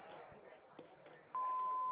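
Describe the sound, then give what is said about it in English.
An answering machine's recording beep: one loud, steady, mid-pitched electronic tone lasting about half a second, after a stretch of low background noise. “Please leave your name and number after the tone, and we'll return your call just as soon as we can.”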